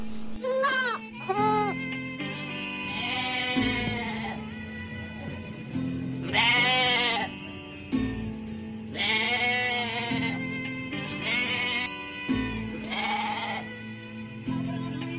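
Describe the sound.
A lamb bleats repeatedly in wavering, quavering cries, about six separate calls spaced a few seconds apart over a steady, low tonal background.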